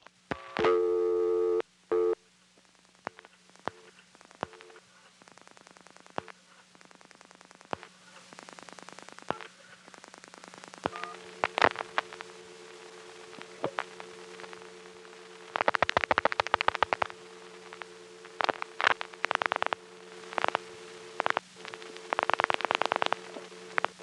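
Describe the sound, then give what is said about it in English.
Telephone line sounds from a toll call pulsed into a step-by-step tandem exchange: steady tones, many sharp clicks, a low continuous hum and several bursts of hissing static. “This is a call that is pulsed into a step-by-step tandem. Toll calls have a distinctive sound, so listen for that sound after I finish dialing.”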